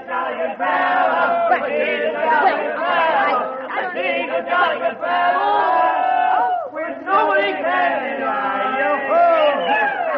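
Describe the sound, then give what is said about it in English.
A crowd of friends and neighbors shouting and cheering at a surprise homecoming party, many overlapping excited voices, loud and continuous, dipping briefly before surging again. “Surprise! Surprise! Welcome home!”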